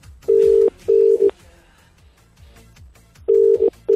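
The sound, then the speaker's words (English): An outgoing phone call's ringback tone, steady low-pitched buzzes in a double pattern: two bursts close together, a pause of about two seconds, then the pair again, loud and clear. “Right, we're ringing.”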